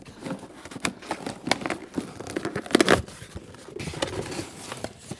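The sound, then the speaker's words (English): A box is opened on a desk, giving steady crinkling, tearing and scraping with scattered sharper crackles and rustles throughout. “Okay, I'm opening the box. Okay. Here it is. Here it is on the desk.”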